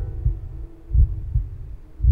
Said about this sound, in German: Außer dem staccatoartigen Trommeln meines eigenen Herzschlages, das ich in meinen Ohren festgesetzt hatte.